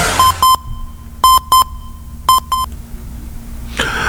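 Electronic time-signal beeps on a radio station: five short, bright pulses, a single one followed by two quick pairs, over a faint steady tone, then a brief burst of noise at the end.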